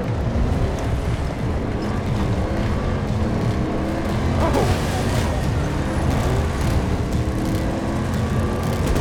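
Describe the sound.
Vehicle engine drone from a military video game, with a player driving a heavy vehicle across a battle sector. A loud, steady, continuous rumble with rough road noise holds at even volume throughout.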